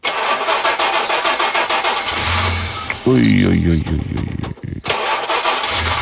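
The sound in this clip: An old car engine starts on its second attempt: loud, rough cranking noise, then the engine catches and runs unevenly. Talk is heard alongside the engine.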